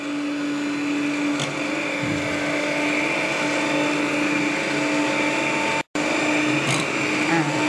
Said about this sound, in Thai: ใช่แต่ว่าเดี๋ยวเราจะใช้เครื่องปั่นช่วยนะคะพอปั่นไปเรื่อยๆแบบนี้แล้วอุณหภูมิลดลงอ่ะมันจะเป็นเนื้อครีมสีขาว